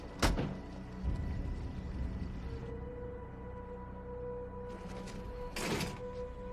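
Car door thuds as a man steps out of a parked car: two sharp, faint thunks, one at the start and one near the end, over a low steady hum.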